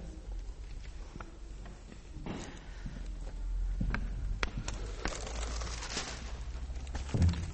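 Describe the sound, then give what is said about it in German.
Clip-clop of hooves from a passing horse-drawn carriage: irregular hoof knocks over a steady, rumbling noise that swells in the middle, with a louder knock near the end. “Ah, eine Kutsche.”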